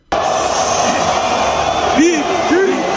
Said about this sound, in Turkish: Bordo Mavili taraftar Mısırlı futbolcu için meşaleler yaktı, tezahüratlar attı.